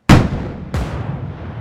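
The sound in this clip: Two heavy booming blasts with long rumbling tails ring out, as a ship's twin-barrelled gun turret fires on a lifeboat that explodes; each burst strikes sharply and loudly, then fades into a dense rumble.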